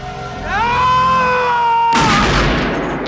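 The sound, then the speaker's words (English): A sawn-off shotgun fires once in an audio drama, a loud sharp blast with a noisy decaying tail. A sustained, rising tonal cry comes before it. “Storm shoots, and Trent stumbles backwards.”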